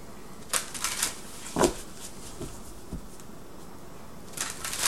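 Tarot cards drawn from a deck during a reading, heard as a few soft, quick papery snaps and rustles, quiet and spaced apart, with no talking.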